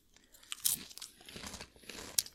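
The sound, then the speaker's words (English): Crisp crunching of Cheez-It cheese crackers being bitten and chewed, a couple of sharp loud crunches standing out among many smaller crackly chews, with no talking. “Let's try the Cheez-Its.”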